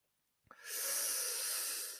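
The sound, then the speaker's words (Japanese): A young man takes one deep breath: a small catch, then a long, airy rush of breath lasting over a second. It is faint and heard alone. “智弘は深く深呼吸をした。”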